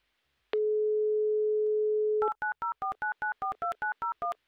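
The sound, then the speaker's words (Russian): A telephone dial tone holds for nearly two seconds, then a phone number is dialed as a quick, even string of many short two-pitch keypad tones. “Соединение есть. Гудки пошли.”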